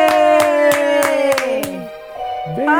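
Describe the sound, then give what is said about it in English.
A woman claps her hands six times in a quick, even rhythm while a sustained cheering voice gradually drops in pitch. After a short pause, talking begins. “who is that lady clapping a lot?”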